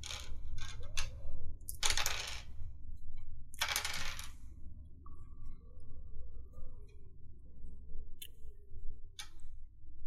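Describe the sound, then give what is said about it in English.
Dice rattling and clattering on a table during a tabletop role-playing game: a few short, bright bursts of clicks separated by quiet, followed by scattered small ticks. “Oops, I rolled the wrong dice.”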